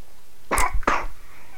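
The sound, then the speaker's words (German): A small child coughs twice in quick succession, two short sharp bursts with a faint catch between them, then quiet. “Da hustet meine kleine Coworkerin hier, die ich dabei habe.”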